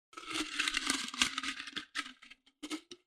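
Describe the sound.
A paper slip drawn from a container and unfolded: quiet crinkling and rustling, a long rough stretch followed by a few short crisp bursts.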